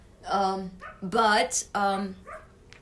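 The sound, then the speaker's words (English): A dog barks in the background in a few short, high-pitched yipping bursts with whimpering tones, fairly loud and separated by brief pauses. “I think you can hear that dog in the background.”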